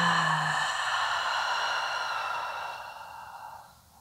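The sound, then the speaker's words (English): A long, breathy exhale during a guided breathing exercise in a workout class, part of a breathe-in-through-the-nose, out-through-the-mouth pattern. The single airy sigh starts loud and gradually fades over about four seconds. “Breathe out through your mouth. Breathe in through your nose. Breathe out through your mouth.”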